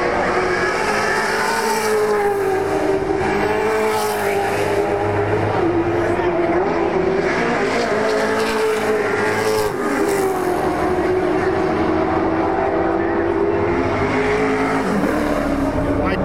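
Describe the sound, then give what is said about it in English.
Race cars, including SS Camaros, roar past just beyond the first chicane in a continuous loud engine drone. Revs rise and fall as cars overlap, with no break in the noise. “just have a listen to the sound of these cars coming down”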